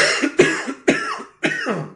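Coughing from a tickle in the throat comes as a few harsh, rapid bursts in quick succession, loud and with no talk.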